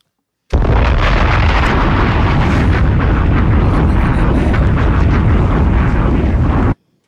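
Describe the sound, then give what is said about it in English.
Bombs exploding in a loud, continuous roar of blast noise. A dense, rumbling wall of sound starts abruptly, holds steady for about six seconds, then cuts off sharply. “Bombs!”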